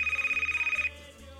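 A telephone rings for an international call with a fast electronic trill made of many rapid pulses in one burst, which then stops abruptly; a steady low hum continues underneath, fairly faint overall.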